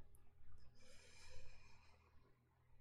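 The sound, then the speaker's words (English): A gentle inhale taken slowly through the nose during a guided group meditation: a soft, faint, airy breath drawn in over roughly two seconds, alone and without talk. “When you're ready, gentle inhale together.”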